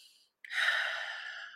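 A single deep breath: a long, airy rush of breath that starts abruptly and holds for over a second, fading only slightly, after a faint, brief breath sound and a short silence.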